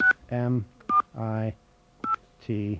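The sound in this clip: Telephone keypad DTMF tones spell a last name into an automated phone directory: three short, bright beeps, each followed by a spoken voice prompt.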